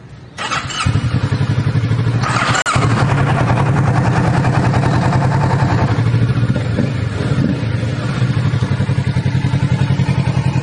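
A motorcycle engine fired by its push-start button catches almost at once and settles into a loud, steady idle with a rapid, even throb, plus a single thud a couple of seconds in.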